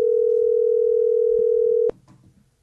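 A steady telephone dial tone hums as a single continuous mid-pitched tone for about two seconds, then cuts off abruptly, leaving faint low background noise.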